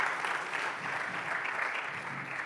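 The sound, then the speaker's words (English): Audience applause for a person invited up front: a steady, dense wash of many hands clapping together, fairly faint and even throughout, with no talk over it. “Everyone clap for Marianne, please.”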